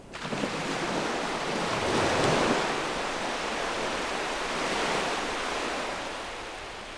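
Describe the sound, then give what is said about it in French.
Ocean waves break on the beach at Roche-Percée in December, a continuous rushing roar of surf that swells twice and then eases off toward the end. “sur la plage de la Roche-Percée, 8 décembre 2017.”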